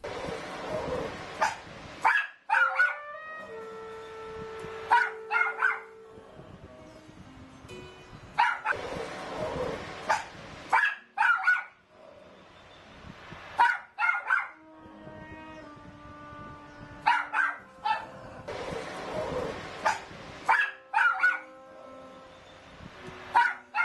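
A dog barks and whimpers in a played video: repeated sharp bursts alternate with high, drawn-out tonal whines and yips across the stretch, with quiet gaps between.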